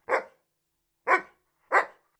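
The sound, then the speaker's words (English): Three sharp, loud dog barks ring out alone against silence, with a long pause after the first and the last two coming close together. “a dog!”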